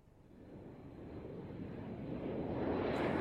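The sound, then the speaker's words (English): Jet roar from a Turkish Airlines passenger airplane landing at an international airport, a broad, steady rumble that swells gradually louder over a few seconds, with no voices. “Turkish Airlines Flight 8 is landing at Pierre Elliott Trudeau International Airport.”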